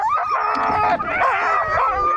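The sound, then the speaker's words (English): A hungry sled dog howls and whines in a continuous, high, wavering cry that rises and falls without pause. No voices are heard. “That is the sound of a hungry sled dog.”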